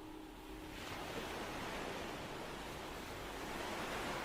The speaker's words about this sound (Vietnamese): hòa lẫn với tiếng sóng biển rì rào ngoài kia